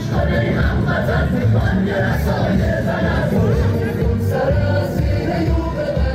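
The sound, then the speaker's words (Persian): A crowd of Iranians abroad chants at a protest rally against executions in Iran. Many voices blend in a dense, loud, continuous roar of shouting that holds steady throughout. “صدای این اعتراض در تجمعات پراکنده‌ای که ایرانیان در بیرون از مرزها برگزار می کنند هم شنیده می شود.”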